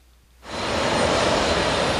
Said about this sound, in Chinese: 位于美国西海岸的洛杉矶国际机场，是北美大陆与中国最近、最繁忙的一个海关口岸。每天这里都有两三个直飞中国的航班，